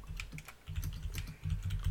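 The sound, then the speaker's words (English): Rapid typing on a computer keyboard: many quick, light clicks run in an uneven but steady stream, fairly quiet, over a low background hum, with no talking. “No, not going to say it. I'm going to type it.”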